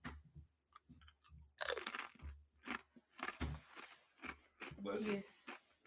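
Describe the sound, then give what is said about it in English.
Biting and chewing a very spicy hot chip: many sharp, irregular crunches and crackles come one after another, close and fairly loud, as the chip is bitten and chewed. “Little chip bite for you guys. Do the chip down.”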